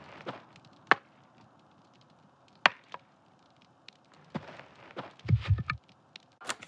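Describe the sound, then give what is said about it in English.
More wood is tossed onto a campfire: a few sharp, dry wooden knocks spaced apart, then a cluster of low thumps as logs land, ending with another crisp clack. There are no voices. “Fire looks like it needs more wood, right? Let's throw some more in there.”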